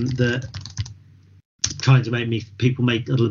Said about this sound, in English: I banged the keys hard there because I didn't want people thinking